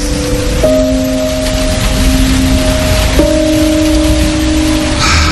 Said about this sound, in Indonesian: Kuperhatikan hujan mulai turun dengan deras.